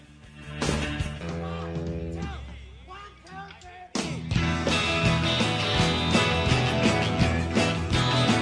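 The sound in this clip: A rock song played live by a band with drums, electric guitars and vocals opens quietly, then bursts into a loud, driving full-band section about halfway through.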